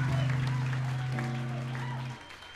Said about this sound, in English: You guys are good at clapping.